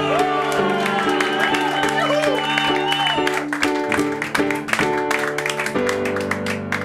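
Applause and cheering greet a performer being introduced on stage. Clapping and a few shouts are mixed in under loud music with sustained tones.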